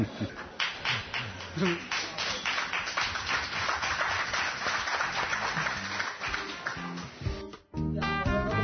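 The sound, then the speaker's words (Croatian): Applause for a water polo player being honoured after winning a medal, many dense claps running for several seconds with voices, cutting off near the end before talk resumes. “Zaslužio je aplauz i zbog rezultata i zbog načina na koji se obratio Srbiji.”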